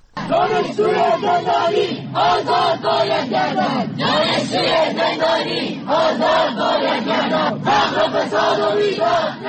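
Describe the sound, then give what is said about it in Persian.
University students chant at anti-government protests across Iran. Many voices shout short phrases loudly in a steady, repeating rhythm, with brief pauses between the bursts. “این صدای دانشجویانی است که در اعتراضات سراسری مردم علیه حکومت جمهوری اسلامی در صف اول معترضان قرار گرفتند.”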